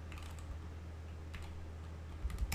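Someone types a search on a computer keyboard, giving a faint run of quick, light key clicks over low background hum, a little louder near the end.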